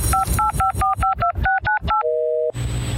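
A telephone number being dialed on a touch-tone phone: nine quick dual-tone beeps in a brisk, slightly uneven rhythm, then one longer steady tone, then a hiss of line noise.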